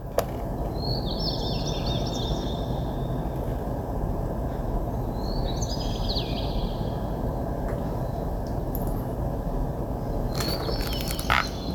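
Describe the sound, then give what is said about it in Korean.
Birds sing on a rainy day: a few short, high chirping phrases, fairly faint, rise above a steady hiss of falling rain that continues throughout. “다솜의 비오는 날의 새소리 들으면서 마무리하겠습니다.”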